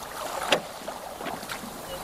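Oar strokes from a rowing boat paddled with a single oar: a few soft splashes and swishes of water, faint and alone.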